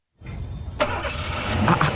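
A car engine starting: a brief cranking whir, then the engine catches and settles into a loud, steady running rumble, heard alone.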